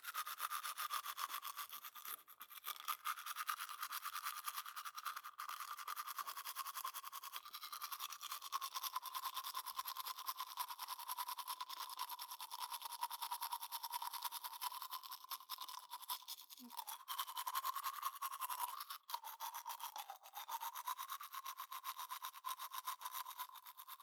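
Toothbrush scrubbing teeth, working over the back surfaces: a continuous, faint, bristly rasp of steady strokes lasts the whole stretch, with no talk.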